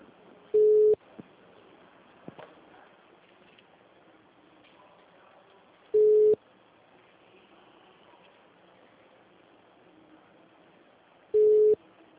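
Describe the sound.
Telephone line tones on a call where all lines are busy: three short, identical low beeps spaced several seconds apart, with faint line hiss in between.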